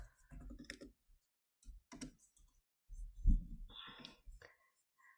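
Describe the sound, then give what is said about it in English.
Keystrokes on a computer keyboard come in short, irregular bursts of soft clicks separated by brief pauses, quiet overall. “looking at a mandala right now, I can just type in mandala.”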